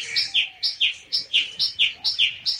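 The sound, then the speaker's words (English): Bird song made of many rapid, evenly spaced high chirps, each a bright two-part note. They repeat in a steady rhythm, loud and alone. “And Darzee filled his throat and sang.”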